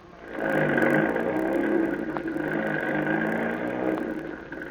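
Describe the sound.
Truck engine pulling a trailer as it drives off, swelling quickly into a loud, steady mid-pitched drone that holds and eases only slightly toward the end.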